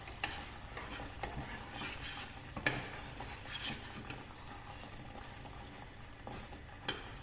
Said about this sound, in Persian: صداشو ببینید، این دیگه تقریبا نشون میده که آبی تو این نیست که قل بخوره.